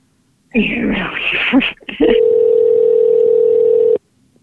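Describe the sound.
A steady, even telephone tone holds for about two seconds while a call is placed to reach a voicemail, following a short burst of voice.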